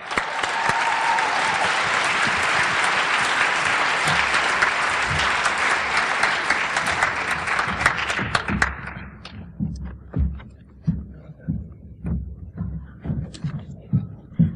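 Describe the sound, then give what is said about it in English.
An audience at a poetry reading applauds to welcome poets back to the stage, with dense, even clapping for about eight seconds that dies away into scattered claps and soft thuds. “Please help me welcome back to the stage, reading in this order, Mark Doty and Molly Peacock.”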